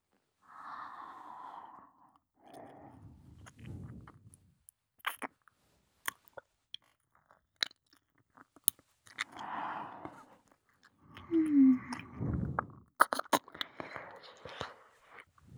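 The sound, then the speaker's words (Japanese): Wet ear-licking mouth sounds come in soft, intermittent bursts of smacks, slurps and tiny clicks, separated by quiet gaps and mixed with breathy passages. “耳を舐めてほしい？わかった。”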